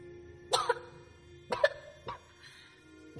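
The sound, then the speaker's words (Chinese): Several short, sharp coughs in dusty air come in quick pairs and then singly, fairly faint, with quiet gaps between them. “空气中没有回答，只有若隐若现的咳嗽声传来。”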